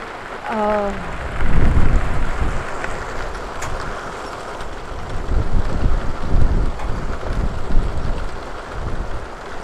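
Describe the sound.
Thunder rolls during a storm with rain and wind, a long, low rumble that swells and fades over several seconds amid gusty wind buffeting, with a brief voice near the start.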